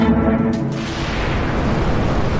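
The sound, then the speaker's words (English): A rocket liftoff sound effect: a loud, dense, continuous rumbling roar fills the whole clip without a break. “We have liftoff.”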